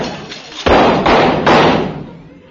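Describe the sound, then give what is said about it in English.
Three loud gunshots are fired at a man skulking behind a bush, heavy booming blasts in quick succession, each trailing off in a rumbling tail, with no talk. “There. That'll fix him. I threw at least 3 slugs right through his shoulder.”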